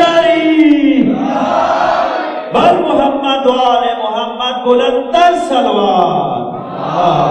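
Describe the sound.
A crowd at a religious gathering praising Ali chants a religious slogan in unison. Many voices surge loudly together in long, sustained phrases that rise and fall in waves, with several fresh chanted bursts across the stretch.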